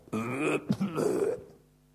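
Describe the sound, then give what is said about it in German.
A voice imitates a burp, a croaking, drawn-out belch in two parts: a first stretch of about half a second, a brief gap, then a longer, rougher second part, fairly loud and without other talk. “ein Rülpser. Das war der Beweis, dass das Essen gut ist.”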